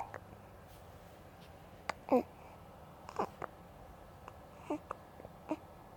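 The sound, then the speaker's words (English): A month-old baby girl hiccuping: a few faint, short, voiced hiccups separated by quiet pauses. “Zachy Hennessy, and this is the sound of my baby daughter hiccuping.”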